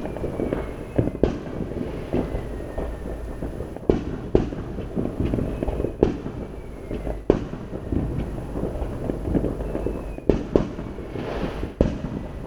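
Fireworks go off in the distance with sharp booms and popping, runs of rapid-fire crackling, and a faint whistling screamer, all at moderate loudness over a steady low rumble.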